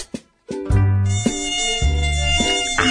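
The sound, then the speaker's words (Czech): A mosquito whines near the ear with a thin, high, insistent buzz. The buzz holds steady but shifts abruptly a few times, after a couple of short faint sounds and a brief silence at the start. “Já myslím, že neznáme otravnější zvuk než pískání komára u ucha,”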